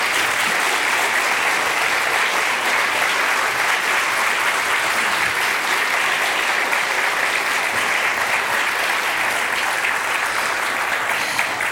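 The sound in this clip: Audience applause welcomes author Pico Iyer and Laurie Brown at a Stillness Residency conversation event: loud, dense clapping holds steady for about twelve seconds with no talk over it.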